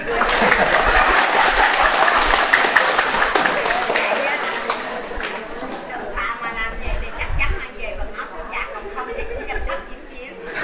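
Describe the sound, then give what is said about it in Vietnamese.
Audience applause starts as dense, loud clapping, then thins into scattered claps mixed with chatter and chuckling voices. “Vỗ tay.”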